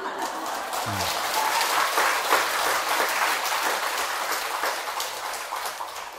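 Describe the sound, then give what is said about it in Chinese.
Applause from a crowd at a practice session, steady dense clapping at moderate loudness that carries on for the whole stretch without voices on top. “你们这个鼓掌太盲目了啊！”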